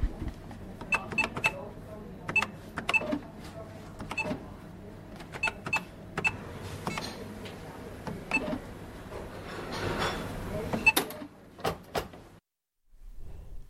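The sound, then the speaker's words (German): A shop cash register rings up sales in a bakery, with many irregular key clicks, clacks and bright ringing dings at a moderate volume, then a sudden drop to near silence at the end. “Hier hören wir jetzt die Ladenkasse.”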